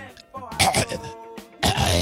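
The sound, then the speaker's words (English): Someone clears their throat in a few loud, rasping, gravelly bursts separated by short pauses. “I'm sorry, there was something in my throat.”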